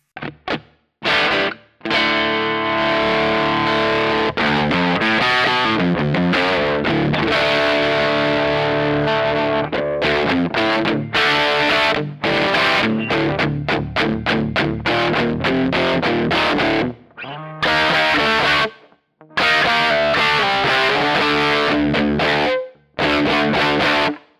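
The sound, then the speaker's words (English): Synth-like electric guitar tone pushed through fuzz distortion and an amp on a Kemper Profiler, played loud with sustained, buzzy chords and notes, broken by a few brief gaps. “That's definitely fuzz, and I can see that.”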